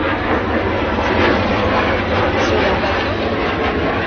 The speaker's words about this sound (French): C'est simplement un avion qui passe.